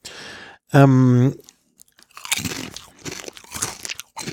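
Crisp crunching of Polish potato chips being bitten and chewed, a run of irregular crackly bursts following a short tonal sound.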